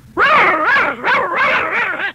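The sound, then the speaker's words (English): A person's voice imitates a little dog barking, producing a quick run of high, yappy barks with wavering pitch, loud and alone without other talk. “This is like a little dog would say,”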